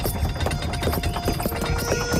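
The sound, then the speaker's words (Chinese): Hooves clip-clopping as a horse-drawn carriage approaches: quick, steady clops over a dense, busy backdrop of sound. “吴国千夫长驾着马车驶了过来。”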